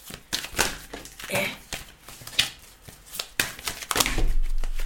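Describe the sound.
Cards are shuffled by hand during a spiritual card reading, with irregular soft rustles and sharp slaps, then a louder, sustained riffling burst near the end.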